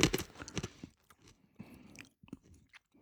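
Crunchy chewing of wasabi-coated dried peas: a quick cluster of loud, crisp crunches, then softer, irregular bites and grinding that taper off, with no talking.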